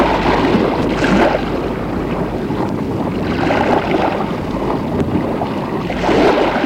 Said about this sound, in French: À l'intérieur de la maison, l'on entend le bruit de la mer.